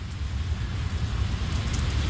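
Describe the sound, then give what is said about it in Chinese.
Rain is driven by a strong typhoon wind gusting through a gate into a corridor. It makes a steady, dense hiss over a deep, continuous rumble that holds level throughout, with no voices. “天空是灰色的，狂风携带着雨星子灌入大门，在走廊上横冲直撞。”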